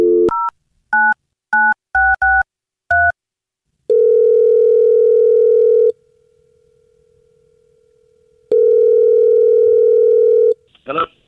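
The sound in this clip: A telephone call is placed: a quick run of touch-tone dialing beeps is followed by two long, steady ringing tones separated by a silent gap, ending with a brief click.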